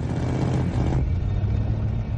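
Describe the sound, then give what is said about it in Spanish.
Steady, fairly loud engine rumble from road cars, a coupé and a convertible slowing down on the road, a continuous low drone with no clear breaks. “El coupé y el descapotable deceleran.”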